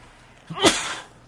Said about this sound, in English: There's that sneeze. Excuse me.